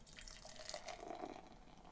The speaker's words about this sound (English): I'm going to pop this top. Ah, it's up. Nice. And the pour.